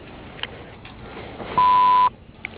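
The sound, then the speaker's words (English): A voicemail beep tone sounds once: a loud, steady electronic beep lasting about half a second, alone over faint background hiss. “You may leave a message after the tone”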